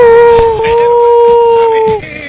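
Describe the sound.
A wolf howl sound effect played on the radio: one long, sustained howl holds a steady pitch for about two seconds, then drops away and fades.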